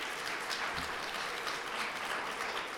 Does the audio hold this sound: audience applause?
yes